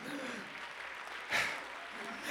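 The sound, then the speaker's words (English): Congregation clapping hands during a church service, a steady wash of applause with a brief louder burst in the middle, sustained throughout. “Now clap your hands to the Lord.”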